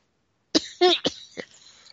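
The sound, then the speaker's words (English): A person's cough, a quick cluster of a few rough, forceful coughs after a moment of silence, trailing off into softer throaty bursts. “Wouldn't you know it, I had to cough as soon as I got on here.”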